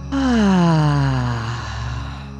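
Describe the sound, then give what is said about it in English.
A long, deep exhale through the mouth during a guided breathing exercise: a loud, voiced sigh that falls steadily in pitch over about two seconds, then trails off into breathy air. “Allow the air to fall out. Exhale, exhale, exhale. Full breath in. Out the mouth.”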